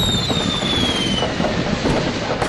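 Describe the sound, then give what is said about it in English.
A Roman candle firework being shot gives a loud, steady, hissing fizz, with a thin whistling tone that slowly falls in pitch across the whole burst. “Shoot another Roman candle before Duper gets back.”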